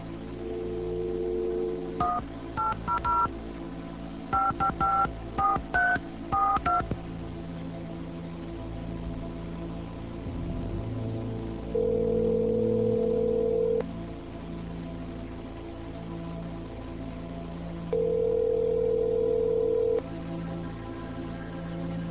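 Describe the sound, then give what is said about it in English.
Telephone being dialed: a quick run of many keypad tones, then two long, steady ringing tones on the line separated by a pause, over a constant low hum. “In this scene, Eleanor phones her ex-husband Arthur, who is remarried.”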